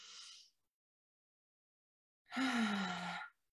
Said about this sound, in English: start to take a few deep breaths in through the nose